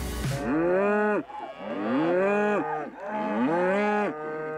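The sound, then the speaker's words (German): Cattle mooing on a pasture where they graze outdoors all year in the Sauerland. Three long, loud, tonal moos come one after another with short pauses between them, and no voices are heard. “Die Rinder leben das ganze Jahr über draußen auf Weiden rund um den Hof.”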